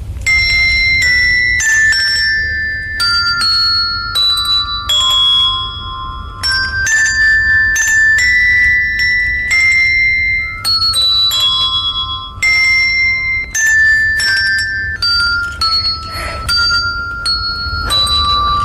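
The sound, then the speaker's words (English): Girls play the Christmas carol Joy to the World on handbells, a loud, steady stream of ringing bell strikes forming the melody, each note ringing bright and clear, with no talking. “Our talent is playing the handbells. We're going to play Joy to the World.”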